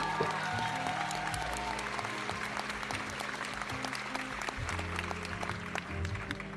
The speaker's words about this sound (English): Thank you, studio audience.